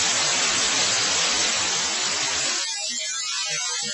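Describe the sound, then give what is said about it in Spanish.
Harsh hissing static from a badly tuned television set to a spot with no station: a dense, steady wash of white noise, loud throughout, thinning slightly in its second half. “Pero eso es el sonido de un televisor mal sintonizado”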